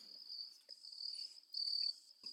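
Crickets chirp in the mountains of Malinalco in central Mexico, a steady high-pitched trill pulsing in faint, uneven waves, with no voices present.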